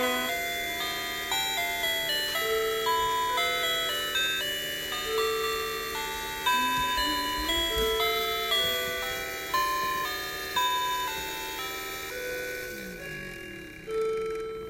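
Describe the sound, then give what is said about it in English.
A little clock plays a tinkling tune, a steady run of bright, evenly spaced notes forming a simple repeating melody, quiet and alone, with a brief stronger note near the end. “That noise, that song that you were hearing in the background, like, da, da, da, da, da, da, da, da, was our little clock thing.”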